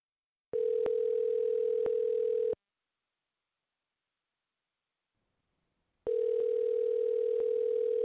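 Telephone line tone while placing a call: two long, steady, buzzing tones of about two seconds each, separated by several seconds of silence.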